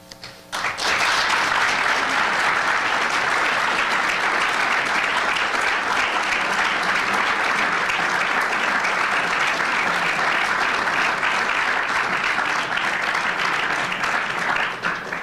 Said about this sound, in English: Thank you, Dr. Craig, and I'd remind the audience to hold your comments or your expressions of approval to the end of the debate, please. But it's okay to clap between segments.